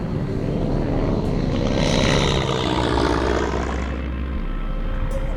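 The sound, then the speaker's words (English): Small aircraft landing on a small open runway in the Himalayan mountains, heard as a loud, continuous roar of engine and rushing air with a low drone underneath, holding steady and easing slightly near the end. “Touching down on a small open runway, we step off the aircraft in complete awe.”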